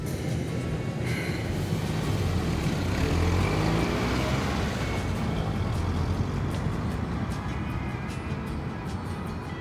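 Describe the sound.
A car hums steadily as it is driven through wintry streets in Buffalo and parked, a continuous low engine rumble with road noise throughout.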